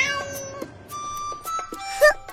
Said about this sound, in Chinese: 我让你这只肥猫蠢猫，看我把你丢在这里。